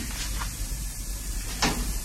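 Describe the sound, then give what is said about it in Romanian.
A wardrobe door opens in a Romanian radio play as a character steps out of it. Two brief, soft scraping knocks sound about a second and a half apart over a steady hiss. “Leonil iese din dulap îmbrăcată în rochie.”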